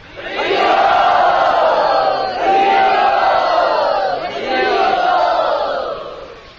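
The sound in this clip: A crowd at a religious gathering shouts and cheers to welcome a speaker, the loud, dense voices rising in three sustained swells with brief dips between them.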